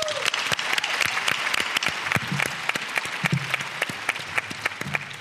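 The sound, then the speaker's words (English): An audience applauds as a leadership and coaching speaker is introduced at a talk. Many quick, crisp handclaps stack into steady, moderately quiet applause that continues for the full length without voices. “Please put your hands together and help me with a warm welcome for Shoma Chatterjee.”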